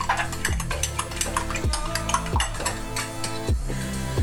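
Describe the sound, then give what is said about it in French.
Slightly cooled pasta cooking water stirred into a grated parmesan mixture, with repeated scraping, swishing and light clinks of a utensil against a bowl, fairly loud and continuous. “Et moi à côté là je suis en train de prendre l'eau des pâtes qui est un peu refroidie et je vais la mélanger à, mon mélange parmesan”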